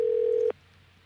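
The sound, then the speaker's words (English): A telephone being dialed: a single steady mid-pitched tone holds for about half a second, then cuts off abruptly into near silence. “Are we dialing? There we go.”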